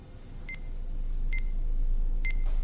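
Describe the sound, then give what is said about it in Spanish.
A wall-mounted burglar alarm panel arming in a thriller film sounds three short, high, evenly spaced countdown beeps over a low steady hiss. “En una pared el panel de la alarma se conecta y se inicia una cuenta atrás.”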